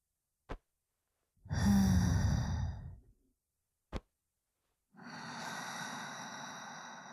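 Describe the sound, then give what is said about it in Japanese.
A slow exhale through the nose during a guided breathing count: two long, airy breath rushes, the first louder and fuller, the second steadier and softer, with a short sharp click before each. “ゆっくりお鼻から吐いて”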